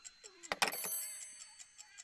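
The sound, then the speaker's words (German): An alarm clock ticks with faint, evenly spaced clicks following a short burst of clatter at the start. “Tick-Tack, Tick-Tack. Hey, der Wecker ist rund.”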